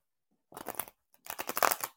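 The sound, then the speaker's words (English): Tarot cards shuffled by hand: two crisp, papery riffling bursts, each lasting under a second, separated by a short pause, heard alone without talk. “So if you can hear, that's the sound of the cards being shuffled.”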